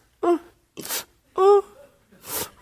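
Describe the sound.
A voice imitates mourners wailing at a funeral with four quick bursts that alternate between pitched, moaning cries and breathy, gasping exhalations.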